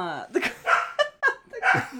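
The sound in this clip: A dog barks in a quick run of short, high yips and whimpering barks, several bursts in about two seconds, mixed with talk.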